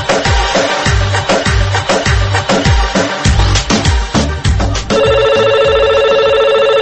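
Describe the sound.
A telephone rings for an incoming call-in caller: loud rhythmic music plays first, then a steady, bright electronic ring tone takes over and holds to the end.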